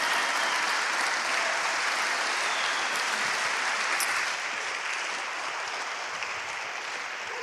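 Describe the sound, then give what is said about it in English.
Sustained audience applause at a gathering where marriages are prayed for: dense, loud clapping from many hands that holds steady throughout and eases slightly toward the end. “let's just pause for a moment and give these guys a massive round of applause for their honesty and openness”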